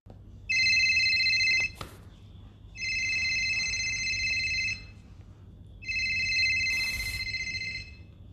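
A telephone rings for an incoming caller, sounding three long electronic ringtone bursts with steady, bright tones separated by short pauses. No one speaks.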